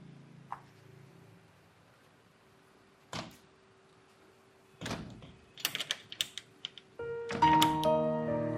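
A door being opened: a few faint, sharp clicks and knocks spaced apart, then a quick cluster of rattling, latch-like clicks, before a sustained tonal background swells in at the end.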